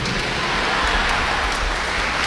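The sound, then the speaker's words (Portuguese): A church audience applauding Our Lady, a dense, steady wash of clapping that holds at an even loudness throughout, with no voices standing out. “E uma salva de palmas para Nossa Senhora. Viva Nossa Senhora! Viva a padroeira do Brasil!”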